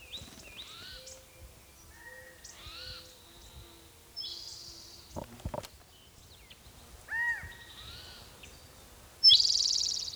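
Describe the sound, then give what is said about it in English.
Bird calls sound in a quiet outdoor setting: many varied, thin chirps and short call phrases, some rising or dipping. A few louder notes stand out, and a harsh burst closes the sequence. “Maybe the calling bird is the mate.”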